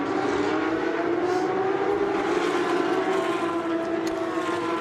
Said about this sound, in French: Là les concurrents dans la ligne droite des stands.